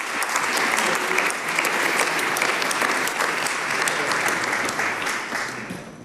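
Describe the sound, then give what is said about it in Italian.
Warm applause welcomes a government minister at an event: dense, steady clapping from a crowd that continues for about six seconds and eases slightly at the end. “accogliamo con un caloroso applauso la Ministra per le Riforme Istituzionali e la Semplificazione Normativa, l'Onorevole Maria Elisabetta Alberti Casellati.”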